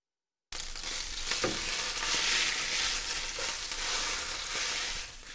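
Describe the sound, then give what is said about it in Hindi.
Chicken fillets sizzle in a frying pan, a steady, dense hiss of hot oil with a few faint crackles, running unbroken after a short silence at the start. “फिले पक जाएं तो आंच बंद कर दीजिए और इन्हें fry pan से बाहर निकाल लीजिए।”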